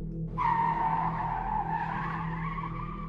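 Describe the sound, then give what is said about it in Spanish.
A vehicle brakes hard and skids with a loud tire squeal. The squeal starts abruptly and holds at a fairly steady high pitch for nearly three seconds, with no other sound. “Ante la impresión y por reflejo, frené a fondo, a tal punto que mi unidad patinó.”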